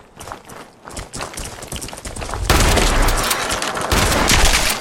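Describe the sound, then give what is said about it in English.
Video game shotgun fire against giant shrimp enemies: a run of separate sharp blasts gives way to a dense, loud, continuous burst of noise through the second half. “Shotgun, much better against these giant shrimp.”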